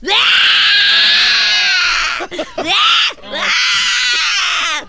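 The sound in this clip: Loud, high-pitched wailing as a person cries over being barred from hugging or kissing children on a long-awaited farewell tour. A long sustained wail breaks into short gasping sobs, then another drawn-out cry.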